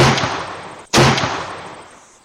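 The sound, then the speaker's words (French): Two rifle shots fired, each a loud, sharp crack trailing into a long fading rumble, the second coming about a second after the first. “elle braqua le fusil en direction de ses deux poursuivants, notant au passage qu'ils étaient encore à une bonne centaine de mètres d'elle, et tira par deux fois au jugé.”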